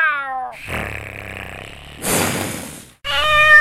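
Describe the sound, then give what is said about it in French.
A domestic cat meows, with two clear high, wavering meows separated by a rougher, breathy vocal stretch, all fairly loud and with no human voices. “C'est le chat”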